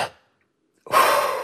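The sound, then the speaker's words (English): A deep breath taken to exhale into a spirometer for a lung capacity test: a loud, steady rush of breathy air that begins after a brief silence, following the fading tail of an earlier breath. “when they take a deep breath to exhale into that spirometer to do the lung capacity test, would kind of go like this.”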